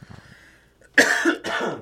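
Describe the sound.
A throat clearing: two rough, harsh bursts in quick succession, the first slightly longer, following a stretch of faint low murmuring.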